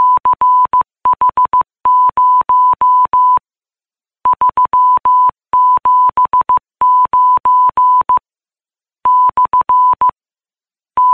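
A coded market news signal giving a March 2010 corn price beeps out in loud, rapid Morse-code tone bursts at one steady pitch, grouped into bursts separated by short pauses, with no voices.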